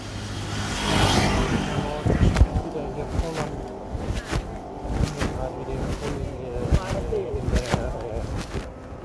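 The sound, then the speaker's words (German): Riding noise from an electric scooter moving through a city: steady rumbling wind and road noise broken by frequent sharp bumps and rattles. “ich fahre gerade mit meinem mit meinem E-Scooter durch die Stadt”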